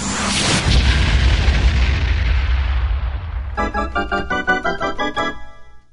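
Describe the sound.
A heavy booming blast as a weapon fires in a video game, loud at first and fading into a long, decaying rumble, then followed by a run of rapid, stuttering tonal pulses that cut off at the end.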